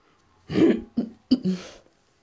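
Throat clearing from someone with a troubled throat: a few rough, gravelly bursts, the first longest, then two shorter ones close together, moderately loud with quiet around them.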